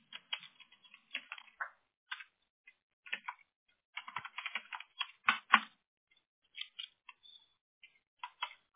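Someone types a name on a computer keyboard: many light, faint key clicks in irregular bursts and short runs, separated by brief pauses, with no talk.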